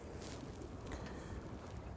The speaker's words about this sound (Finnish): Nyt muuten mennään melkein 5 solmua taas yhtäkkiä, koska tämä tuuli vääntyy tässä saarten välissä.